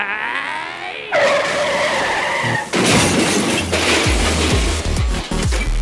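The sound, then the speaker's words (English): A sound effect of a 1970s van driving off with tires skidding: a loud, sustained screech that turns rougher and noisier partway through, with gritty crunching bursts near the end and no voices. “So let's go. Get in your van. Let's drive.”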